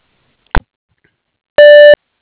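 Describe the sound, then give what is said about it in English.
Voicemail answering-system beep: one short, steady, buzzy tone of about a third of a second, preceded by a brief click and otherwise surrounded by silence. “If you'd like to leave a message, please do so after the beep, or you can call Shannon”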